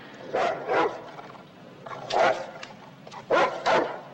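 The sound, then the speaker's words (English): A dog chained at the foot of stairs up to a building on a snowy residential street barks in short, sharp bursts with pauses between them, against a quiet background. “A dog chained at the foot of stairs up to a building.”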